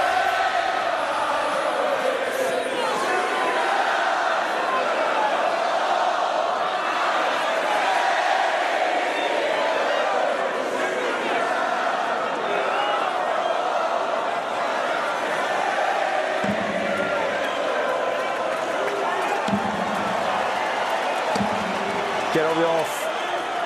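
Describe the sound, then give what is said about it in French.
A darts crowd sings in the arena during a Premier League match between Stephen Bunting and Price, a loud, continuous mass of voices sustained for over twenty seconds. “Et le public en profite. Continue de chanter.”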